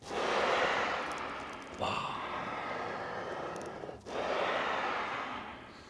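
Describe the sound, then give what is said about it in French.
Air breathes through accordion bellows as a soft, broad whooshing rush. It swells in three long, even sweeps, each broken by a short pause as the bellows change direction. “Là, vous êtes dans le poumon de l'accordéon. Vous êtes dans le poumon, vous êtes dans son cœur.”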